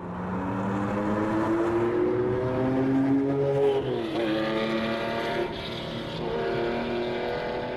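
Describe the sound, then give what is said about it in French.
A Porsche car engine drives steadily and loudly with no voices. Its note climbs in pitch over the first few seconds, drops sharply, then climbs again as it pulls along. “Le lendemain, je repars en Porsche.”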